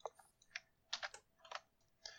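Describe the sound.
Keys clatter on a computer keyboard during a tabletop role-playing game session: a quick, irregular run of faint clicks in small clusters, with no talk.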